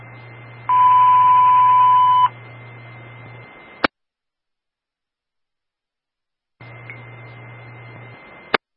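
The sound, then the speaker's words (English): A fire department box alarm tone sent over the radio during a morning test: one loud, steady electronic tone lasting about one and a half seconds over a low hum. A click and silence follow, then the hum returns. “All companies stand by for the box alarm tone, followed by the radio test on channel 1.”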